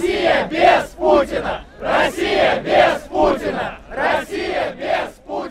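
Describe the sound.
Protesters at a Russian rally for free elections chant a short political slogan in unison, repeated three times in a loud, steady, rhythmic cadence.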